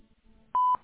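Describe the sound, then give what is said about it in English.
A voicemail recording tone sounds over a phone line: one loud, steady, mid-pitched beep lasting a fraction of a second, after a faint low murmur. “At the tone, please record your message. When you've finished recording, you may hang up or press 1 for more options.”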